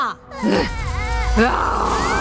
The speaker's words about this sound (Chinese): 别哭